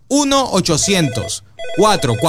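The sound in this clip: Telephone ringing after a toll-free number is dialed, heard under steady talk that runs almost throughout, with one short pause partway through.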